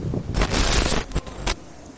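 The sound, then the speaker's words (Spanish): Strong wind blowing straight into a microphone outdoors, a rough, rumbling buffeting that surges in heavy gusts, with a big sustained blast early on and another short burst near the end. “¡Hala, qué viento!”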